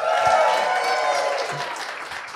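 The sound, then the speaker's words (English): A live studio audience applauds, a dense, steady wash of clapping with a few voices mixed in, easing off slightly toward the end. “So today, the Sent Life is with a live studio audience, and they're here right in the studio. Let's hear it with our live audience.”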